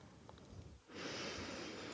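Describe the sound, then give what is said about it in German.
A deep meditative breath, drawn in through the nose and let out through the mouth: faint and quiet at first, then a soft, steady airy rush of exhaled air that holds to the end. “Atme einmal tief durch die Nase ein und durch den Mund aus.”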